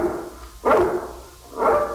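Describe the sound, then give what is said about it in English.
A guard dog of a mountain breed barks at night, giving two sharp, moderately loud barks about a second apart over a faint, low background. “I can't understand why he barks so tonight.”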